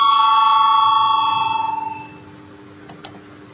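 A bell rung to call a parliamentary vote gives one sustained, slightly pulsing ring that fades away over about two seconds, followed by two faint clicks.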